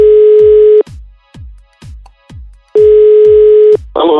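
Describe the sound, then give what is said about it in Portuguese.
A telephone call being placed: a loud, steady single-pitch tone holds for about a second, gives way to a string of short rhythmic pulses, returns for another second, then cuts off into a brief burst of noise. “agora uma ligação surpresa de um contato que entrou lá pro direct da Lígia”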